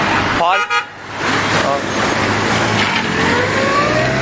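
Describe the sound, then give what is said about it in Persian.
A car pulls out of an alley onto a street lined with parked cars, its engine and road noise holding steady throughout. A brief tonal toot sounds near the start. “اوه یه ماشین تو کوچه داره میاد بیرون”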